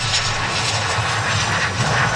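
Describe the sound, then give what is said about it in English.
Loud, continuous engine roar of a passenger plane landing in Victoria, British Columbia, a dense steady rumble and hiss that stays at an even level from start to end, with no talk. “The flight carrying the 4 Canadians touched down in Victoria, B.C. just after 6 p.m. Sunday.”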